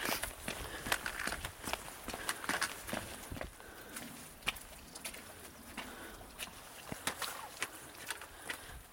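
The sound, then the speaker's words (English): Footsteps on a brisk walk: many quick, sharp steps at an uneven pace over a low, steady background hiss. “I'm just going for a brisk walk to get some exercise.”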